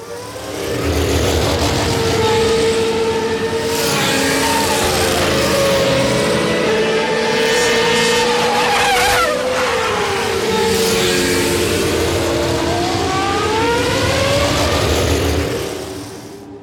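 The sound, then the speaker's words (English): Formula One race cars scream past with loud, high-pitched engines that rise through the revs. One car sweeps by with a clear drop in pitch midway before the engines climb again and fade out. “What do you think it is, really? That sounded like a Formula One. Yeah. I dug that up on the internet because I thought that's kind of an analog,”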